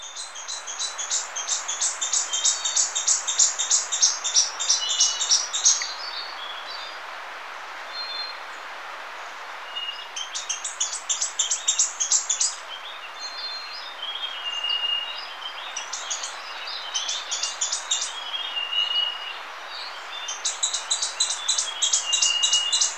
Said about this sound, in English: Flavescent Flycatcher. 1. With Russet Crown Warbler and Andean Solitaire.